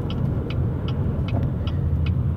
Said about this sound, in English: As sure as I am sitting here in this car talking to you through my phone,